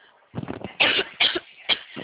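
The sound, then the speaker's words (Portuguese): A person coughs: three harsh, raspy bursts with short gaps between them, after a brief rough, breathy throat sound. “eu tô com uma tosse bem chatinha”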